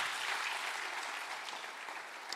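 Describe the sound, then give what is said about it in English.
Church audience applauding its volunteer band: steady, dense clapping of many hands, fairly faint and even in level throughout. “Can we just give this band a clap and celebrate them?”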